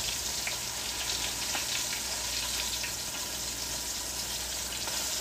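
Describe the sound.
Food frying in a pan gives a steady, even sizzle with scattered small crackles and pops throughout. No one speaks.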